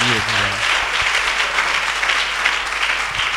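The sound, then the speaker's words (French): An audience applauding in praise of God at a religious gathering, with dense, steady clapping for the whole stretch and a brief voice near the start. “Tu vas pas acclamer Dieu.”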